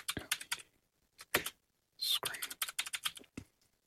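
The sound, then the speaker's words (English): Typing on a computer keyboard: clusters of quick, clicky keystrokes come in short bursts separated by pauses, with low murmured talk in places. “You typed MED.”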